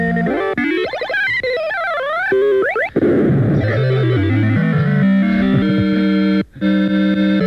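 A radio jingle announcing a sensational new album segment, loud and heavily processed with distortion and echo, built from swooping, sliding electronic tones, with a brief sharp dropout near the end.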